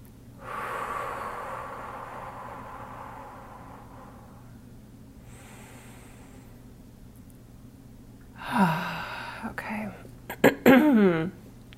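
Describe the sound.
Deep breathing during a guided meditation: a few slow, airy breaths separated by quiet pauses, followed near the end by louder, breathy vocal sounds.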